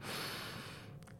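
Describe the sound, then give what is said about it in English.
A deep inhale drawn through the nose, as if smelling a rose: one steady, airy breath of soft hissing that holds evenly, then fades out near the end. No voices. “We're going to take the inhale as if we are smelling a rose. So it should sound something like this.”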